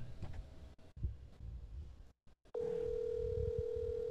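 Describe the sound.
A telephone tone from a call being placed, with muffled handling noise and brief dropouts, then a steady, even-pitched tone that holds unbroken to the end.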